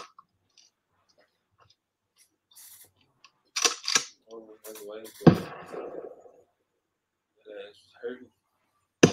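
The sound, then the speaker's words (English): A gunshot fired outdoors in the rain without ear protection lands as one sharp, loud bang cutting through the surrounding talk, with people speaking before and after it. “And I'm going to shoot without any ear prop. See what it sounds like.”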